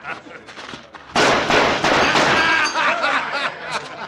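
A gunshot fired at a church weather vane in an old Western town scene: one sudden loud blast after a quieter opening, followed by a sustained, noisy, bright wash that holds for several seconds.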